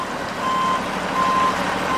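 Reversing beeps come from a tank truck hauling river water and fish at a dam: a steady high tone pulsing at a slow, even pace over a constant engine rumble, two full beeps and the start of a third.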